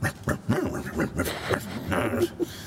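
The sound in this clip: Loud barking of a huge boxer dog, many short, harsh barks and yips in quick succession, with brief gaps between bursts.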